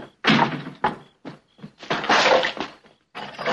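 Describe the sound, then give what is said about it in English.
A gate being kicked and smashed in a film scene, heard as a rough run of heavy thuds, slams and breaking crashes in uneven bursts. “And I like he just destroys the gate as he goes out. He just kind of kicks it.”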